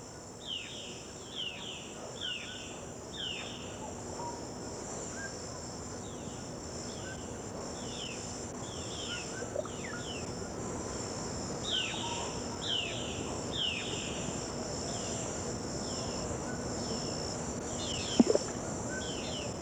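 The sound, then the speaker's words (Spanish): Colombian forest ambience with frogs, crickets, magpies, an oriole and doves: a steady, high cricket drone runs throughout beneath many short, repeated bird chirps, with one sharper click near the end. “En el monte, las ranas, los grillos, las urracas, una oropéndola y las palomas.”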